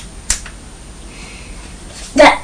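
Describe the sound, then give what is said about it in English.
A retractable pen is clicked: short, sharp snaps, one early and another near the end, separated by a long stretch of near quiet. “When you're flicking the pen, when the nib comes out, yeah, that means no. Yes. And when it goes back in, it means yes.”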